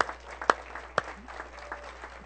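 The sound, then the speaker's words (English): Scattered audience applause in a church, with a couple of sharp, loud claps standing out early on before the clapping thins into a softer patter. “Give them a big hand.”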